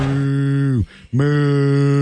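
A low, cow-like moo played during a baseball game right after a home run, heard as one long sustained tone that drops away briefly and then returns for a second drawn-out moo, with no talk over it.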